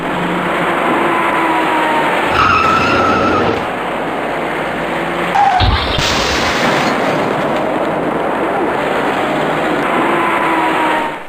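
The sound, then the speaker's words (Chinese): Car crash on an urban ring road at night as a white car rear-ends a silver station wagon: a sudden dull impact bursts out of a constant loud roar of traffic noise, with another brief jolt earlier. “由于措施不及，他严重追撞了前方的一辆银色旅行车。”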